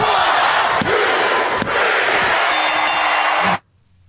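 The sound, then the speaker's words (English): A studio audience counts out a three count, a loud, steady crowd roar broken by a few sharp thuds that stops abruptly near the end. “I get so hyped when that audience counts out that three count every time.”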